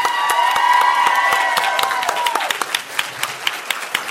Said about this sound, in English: For those of you listening at home, standing ovation for Kim and Ed.